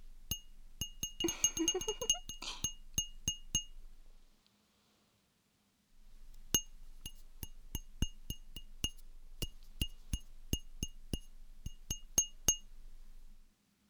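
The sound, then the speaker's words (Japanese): A fingertip taps a drinking glass, making bright clinking pings with a high ring. A quick flurry of taps comes first, then a silent pause, then a slower run of evenly spaced single taps. “お、正解。そうです、コップです。”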